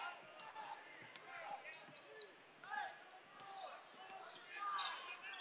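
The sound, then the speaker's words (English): Basketball dribbled on a hardwood court during a boys' game, a few faint bounces under steady crowd murmur and voices. “So left side, dribbling with the ball here”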